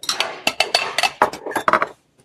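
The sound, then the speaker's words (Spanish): Cups and plates clink in a barracks as they are handled. Many quick, sharp chinks and clatters come in an uneven run, then it falls quiet just before the end. “¿Ese carcelero lava alguna vez estas tazas y platos?”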